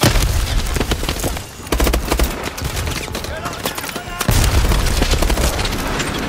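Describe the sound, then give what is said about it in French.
Dense gunfire and explosions from a war video game: rapid bursts of automatic fire mixed with heavy booms, loud and nearly continuous, with two brief dips in intensity. “Voilà, extrait du jeu Call of Duty par exemple.”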